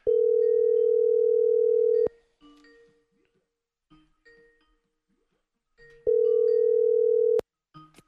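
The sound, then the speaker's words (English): A phone call tone follows a press of the call button on a dial pad: a steady low electronic tone sounds for about two seconds, then a quiet gap with faint clicks, then the same tone for over a second. “So let's plug my phone in, and we'll do this. We'll pull up the old dial pad. We'll hit the button, put this on the air.”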